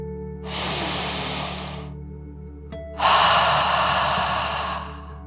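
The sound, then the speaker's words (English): A deep breath in and out during a guided calming exercise: a long, airy inhale lasting about a second and a half, a short pause, then a louder, breathy exhale that slowly trails off over a soft low hum. “let's take one last deep dragon breath in and out.”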